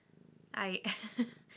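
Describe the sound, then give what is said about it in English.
A cat purring in a person's lap gives a soft, low, rhythmic rumble, faint and alone at first, and then a person starts talking over it. “Also, there's a cat in my lap. I don't know if you can see him. I can see him. I can hear him. Can you hear him?”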